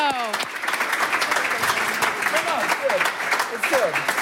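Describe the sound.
Applause rises for an award presentation, a continuous patter of many hands clapping while people talk over it.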